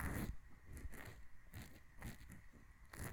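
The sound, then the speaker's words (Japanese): Earpick scratching inside an ear for ASMR, a soft, close crackling and scraping texture that keeps going with small rhythmic bursts, faint and without talk. “それよりほら、お兄様、私の耳かき最高に気持ちいいですよね。”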